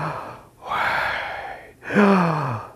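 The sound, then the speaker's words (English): A person breathes the divine name Yahweh instead of speaking it, as two long, airy breaths separated by a brief pause. The second breath carries a faint voiced tone that falls in pitch, and no words are spoken. “the belief was that the name Yahweh was actually breathed. It sounded something like this.”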